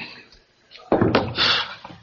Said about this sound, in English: Door.